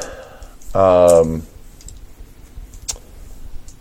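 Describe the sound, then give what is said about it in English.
Dice rolled for a perception check during a game: after a brief voice, a few faint, scattered clicks and light rattles follow, soft and sparse against a quiet background. “We'll do it this way. Let the dice decide.”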